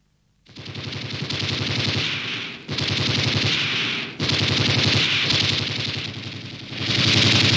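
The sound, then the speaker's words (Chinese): Sustained automatic gunfire rattles out in four long, dense bursts, each separated by a brief dip. The firing is loud and continuous, with no voices. “开枪！他妈的！ 你为什么开枪？”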